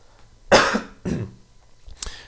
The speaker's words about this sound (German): Jetzt muss ich kurz husten.